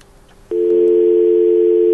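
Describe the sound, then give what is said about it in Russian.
Steady telephone line tone after a dropped call cuts in abruptly half a second in and holds loud and unbroken to the end, over faint low background noise. “Так, сорвался звонок.”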